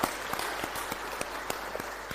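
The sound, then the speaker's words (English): Audience applause for people who donated to and collected for a charity appeal: steady, dense clapping from many hands, fairly soft and even throughout. “Can you please clap again for the people who have donated and collected the Christian aid, £1,611.”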